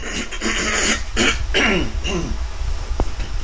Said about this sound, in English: But let me clear my throat.